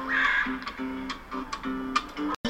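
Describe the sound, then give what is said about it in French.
Magpies chatter in a rapid run of harsh, rattling calls that repeat over and over, loud and clear with no voices. “Les pies bavardes. Elles aiment surveiller leur territoire en se perchant haut ou en patrouillant à pattes les limites de leur royaume.”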